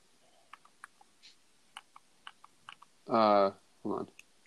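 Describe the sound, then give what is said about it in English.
Video game controller buttons being clicked: many sharp, irregular clicks scattered throughout, broken by two short bursts of voice. “He's in the midst of clicking stuff on his controller, which is fine.”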